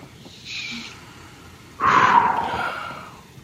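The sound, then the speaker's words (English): A deep breath in and out during a stress-relief tapping exercise. A faint, short inhale is followed by a longer, louder, breathy exhale. “Take a deep breath.”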